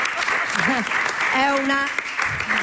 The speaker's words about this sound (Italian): vi chiedo un applauso per lei